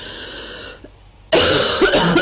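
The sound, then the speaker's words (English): A woman coughing: a harsh, loud run of a few rough coughs erupting after a brief quiet pause, with no talk. “She coughed quite a few times.”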